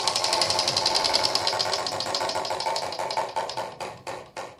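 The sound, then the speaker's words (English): A game show prize wheel being spun, its pointer rattling through a rapid run of ticks that gradually slows, with the last few clicks spaced widely apart before it stops. “All right, would you please spin for Team Spar?”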